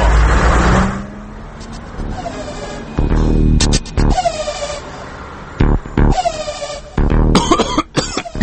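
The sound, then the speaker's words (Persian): City traffic with cars driving past, engine and road noise rising and falling in loud bursts, broken up by several harsh coughs. “همین رانندگی توی شهره. آقا این صداها رو آخه شما میشنوی متوجه میشین دقیقا دیگه چه خبره دیگه؟”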